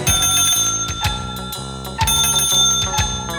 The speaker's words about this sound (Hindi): cycle चलाए ton ton ton ton घंटी बजाए